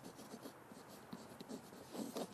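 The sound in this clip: Pen writing on paper, faint scratching in short irregular strokes that continue throughout, heard alone without voices.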